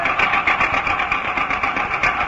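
An old car engine, one just repaired by fixing the wiring in its magneto, runs with a loud, steady mechanical rattle that holds at an even level for the whole stretch.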